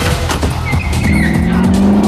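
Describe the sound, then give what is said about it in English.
A Mini car speeds out of a hangar with its tires squealing: a loud engine roar under a high, wavering squeal, followed by a sustained engine drone. “The Mini, with its great shag number plate, careers out of the hangar after Goldmember”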